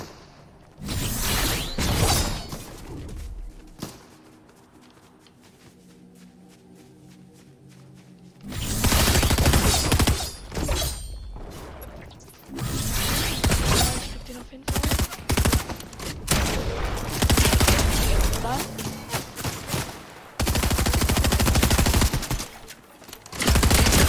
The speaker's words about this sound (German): Da wird auf jeden Fall geschossen.